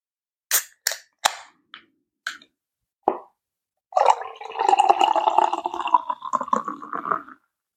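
A beer brewed entirely with Citra hops is opened: a few sharp clicks and snaps, then a sustained bubbling fizz and gurgle lasting several seconds.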